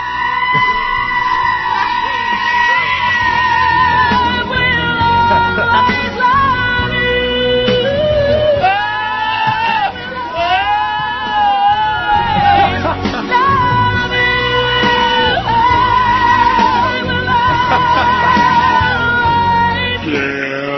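Screaming goat parody: a music track with loud goat-like screaming bleats mixed in, playing continuously and strongly for about twenty seconds.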